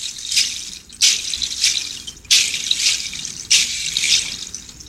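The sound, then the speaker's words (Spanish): A seed shaker is played in a few long, hissing rattles, each a rushing burst of tiny grains that swells and fades, like running water, before the next shake begins. “Así suenan mis semillas.”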